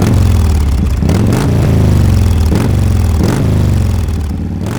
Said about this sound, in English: the roar of a revving motorbike